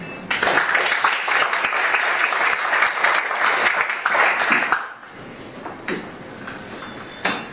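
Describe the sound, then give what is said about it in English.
Applause from an event audience for guest speakers and panel members: dense, loud clapping holds steady for about four seconds, then thins out and fades, leaving a few scattered claps. “Would you give a round of applause to our guest speakers and the panel members?”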